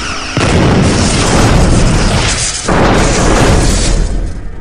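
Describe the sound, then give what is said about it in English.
Phaser fire in a sci-fi drama: two loud, sustained roaring blasts, the second starting as the first fades, each a dense rumbling wash of noise. “Did you just fire phasers at us?”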